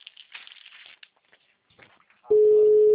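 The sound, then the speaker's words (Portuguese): Telephone ringback tone on a call that goes unanswered: after a stretch of faint, scattered low sounds, a loud, steady single-pitched tone starts near the end and holds without a break. “Ele não tá atendendo. Tá só chamando.”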